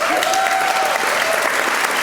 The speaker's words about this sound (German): Dafür einen Applaus bitte.